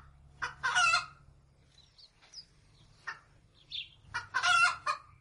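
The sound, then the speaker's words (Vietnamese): Roosters crowing at dawn, with two long, loud crows at the start and end and fainter, shorter calls and clucks scattered between them. “Ngoài kia, gà đã bắt đầu cất những tiếng gáy đầu tiên.”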